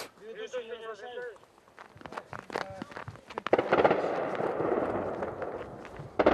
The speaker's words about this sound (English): Inside the town, Ukrainian troops lobbing mortars and obscenities.